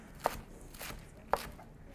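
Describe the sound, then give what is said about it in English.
A knife chops down through a tightly rolled bunch of Swiss chard leaves: three crisp, sharp thuds at uneven intervals, each a quick bright crunch over a low background hum. “Now I'm just going to come down and chop, being very careful of your fingers, but still holding tight onto the bunch.”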